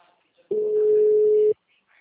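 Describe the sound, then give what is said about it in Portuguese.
A single steady ringback tone, about a second long, sounds while someone places a phone call. It is flat in pitch and fairly loud, with near silence before and after. “Tô ligando para ele”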